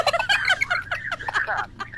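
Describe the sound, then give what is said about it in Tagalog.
A turkey gobbles in a loud, rapid, warbling run of many quick pulses lasting about two seconds, with a low steady hum underneath. “May pabo pa ito gani, bre. May pabo pa.”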